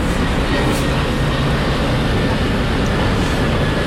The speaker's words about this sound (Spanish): A veces es el avión y a veces es el desfile. Eso es la importancia de estar en el cono de la entrada del aeropuerto.